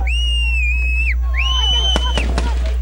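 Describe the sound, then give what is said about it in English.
Gunshots ring out as Israeli security forces fire at Palestinians around Tel Village: a few sharp, loud cracks in quick succession near the end, above a steady low hum and high sustained tones. “Footage from the scene around Tel Village shows chaos with ground and Israeli security forces firing at Palestinians as more than a dozen gunshots are heard.”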